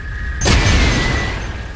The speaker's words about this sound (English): Now, the rockets, you can fire at things and they will take them out.